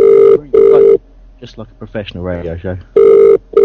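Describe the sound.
A telephone rings for a live radio phone-in call, a steady electronic tone in a double-ring pattern. One double ring sounds, a person talks briefly, then the double ring starts again.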